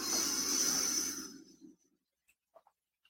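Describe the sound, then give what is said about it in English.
A deep, slow exhale during a breathing exercise, a steady breathy rush lasting over a second that fades into quiet, followed by a few faint, tiny clicks. “Last one, inhale. And exhale.”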